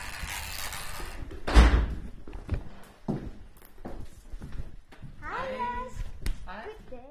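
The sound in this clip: A door opening at the entrance of an apartment: a loud thump with several clicks and rattles, followed by voices near the end.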